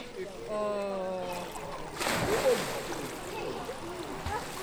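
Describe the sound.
An eleven-year-old child jumps into water while learning to swim, sending up a sudden broad splash followed by churning, sloshing water; a voice is heard briefly just before the jump.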